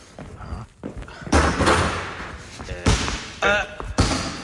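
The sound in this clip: A basketball bounced hard by a player training for his next game. Several heavy thumps land at irregular intervals, each a sharp slap with a short decay, over a fainter background.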